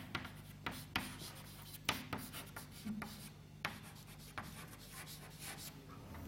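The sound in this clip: Writing strokes during a physics lecture: soft scratching broken by several sharper taps and ticks at an uneven pace, faint and without talk.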